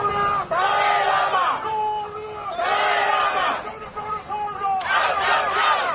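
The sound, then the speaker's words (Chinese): Protesters outside a royal palace in London shout slogans against Chinese policy in Tibet, a loud crowd of voices chanting in repeated bursts over a constant roar of shouting and babble. “现场可以听见抗议者呼喊达赖喇嘛的名字以及中国耻辱等口号。”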